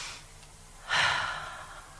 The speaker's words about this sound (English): Now take a deep breath.